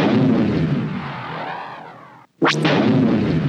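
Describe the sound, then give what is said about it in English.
X-Wing starfighter laser fire and hit in a space battle: a heavy roaring blast that slowly fades, a brief drop to silence, then a sharp zapping burst followed by another loud roar. “X-Wing gets hit. X-Wing laser fire.”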